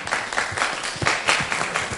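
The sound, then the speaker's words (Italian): Audience applause at a political conference: a short burst of brisk, fairly loose clapping with distinct individual claps, lasting about two seconds. “senatore Valentino, presidente della Fondazione AN, che accogliamo con un applauso ovviamente”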